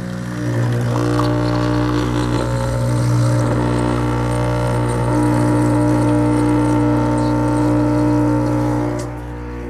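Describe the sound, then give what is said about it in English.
An espresso machine brews a shot with a loud, steady humming pump drone full of even harmonics. The drone holds for about nine seconds, then dies away at the end. “You know what that sound means. Another espresso coming out of the machine.”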